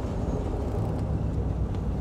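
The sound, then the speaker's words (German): Steady engine and road rumble of a car climbing a hill near Beuerberg, a dense low drone with no clear change in pitch, heard alone without talk. “Das Auto läuft absolut souverän hier den Berg hoch, wo wir ihn jetzt auch hier haben für einen Moment.”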